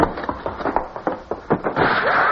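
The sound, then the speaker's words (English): A door is thrown open amid a quick run of hard thumps and scuffling, ending in a sustained loud, noisy rush. “you throw the door open and back out of the way.”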